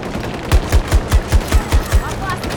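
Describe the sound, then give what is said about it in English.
Shotgun fire in a multiplayer shooter video game: eight heavy, evenly spaced blasts in a rapid, regular rhythm, with no talk over them. “Yeah, it is a bit challenging with the shotgun.”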